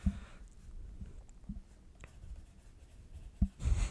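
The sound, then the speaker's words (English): Handwriting as someone scratches notes onto paper with a pen during a trivia quiz game: faint, short scratching strokes come in uneven bursts, ending in a louder rustle. “I have to write some stuff down because I have to remember.”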